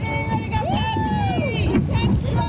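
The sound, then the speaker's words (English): Excited rowers cheer their teammates at a regatta on Prince Edward Island: loud, overlapping shouts with swooping pitch carry over steady wind and water noise throughout. “That's the sound of some excited rowers cheering on their teammates at PEI's 10th annual Red Island Regatta.”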